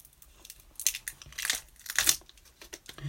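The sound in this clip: Plastic packaging around a roll of green masking tape being crumpled, giving quiet, irregular bursts of sharp crinkling and crackling with short pauses between them, no talking.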